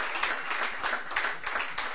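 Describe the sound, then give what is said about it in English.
Audience applause at the end of a songwriter's stage show, dense, continuous clapping from many hands at a steady, fairly loud level, with no voices standing out. “Give yourselves a big hand because you've been a great audience and great musicians tonight.”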